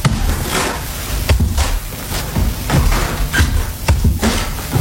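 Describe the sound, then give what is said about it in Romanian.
A knocking on a door sounds as a series of dull thuds, spaced at fairly regular intervals, against a rustling background. “Parcă bate. Deschizi numai dacă e Lady Teasel.”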